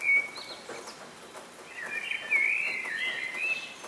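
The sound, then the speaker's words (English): Early-morning dawn chorus of birds, thin high chirps and trilling calls weaving together, quiet at first and then swelling into a brighter, busier stretch of song over a soft, hissy background with no voices. “This is the sound of a bird's dawn chorus. Birds sing out like this in the early hours of the morning to let everyone know that they've made it through the night.”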